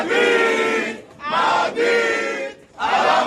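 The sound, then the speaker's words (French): Real Madrid supporters dressed in the club's white shirts gather in a large venue in Douala to welcome Aurélien Tchouaméni. Their crowd chanting rings out loud and tonal in four rhythmic bursts, each separated by short pauses. “C'est dans un grand palace de Douala que la communauté des supporters du Real Madrid, vêtue du maillot blanc du club, s'est mobilisée pour accueillir chaleureusement Aurélien Tchouaméni.”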